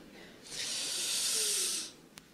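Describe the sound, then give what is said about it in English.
A single deep exhale, a broad breathy hiss that swells up, holds for about a second and a half, then fades out, followed by a faint click. No voices are heard. “let's just uh, take a deep breath after all of that. Big exhale, big inhale.”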